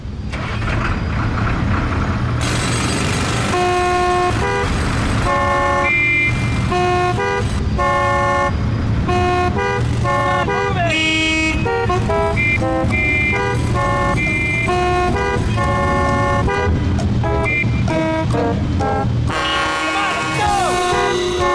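Car horns honk in heavy traffic for a TV promo spot, layered toots and blasts piling densely over a steady low rumble, loud and continuous almost to the end.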